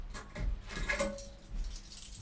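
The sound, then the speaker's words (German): A hotel room key jangles faintly in a few light metallic rattles and clinks, spread over a couple of seconds. “Der Schlüssel, bis Mittag räumen.”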